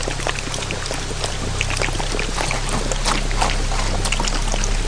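A torrent of flood water rushes through a valley as a radio drama effect, a steady, dense roar of churning water that holds constant throughout with no talk.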